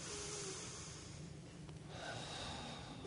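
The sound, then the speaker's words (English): Slow, deep belly breathing forms a quiet, airy hiss that thins briefly partway through and then swells again. No one talks over it. “you can take a couple deep breaths from your belly, making your belly move just like this.”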